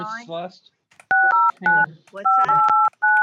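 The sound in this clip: Telephone dialing tones: several steady two-note keypad beeps in short bursts, some back to back, with a person talking before and between them.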